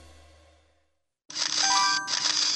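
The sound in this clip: A phone camera gives a chime and a shutter sound. After a quiet gap, a loud, bright ringing burst cuts in, breaks off for an instant, then rings on.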